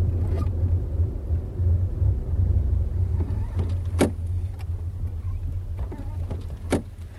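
A vehicle engine labours in volcanic mountains, its gearbox struggling, with a low, steady droning rumble under broad noise and a few sharp clicks and knocks scattered through it.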